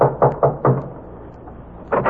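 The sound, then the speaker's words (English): Fists pound on the door of a newspaper copy room. A few heavy, dull thuds come in quick succession, then a pause, then two more thuds near the end. “And you pray there's still someone in the copy room as you pound on the door.”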